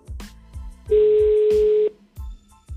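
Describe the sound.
A telephone call being placed to a company line late at night: one long, steady mid-pitched ringback tone of about a second, with a few soft low knocks before and after it.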